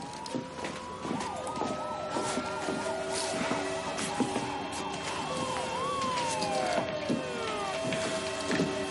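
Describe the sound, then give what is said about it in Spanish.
Several police car and ambulance sirens arrive at a house. Wailing tones overlap, including a fast, repeating rise-and-fall yelp and a long falling sweep, over a steady background. “Al poco, la policía y varias ambulancias rodean la casa.”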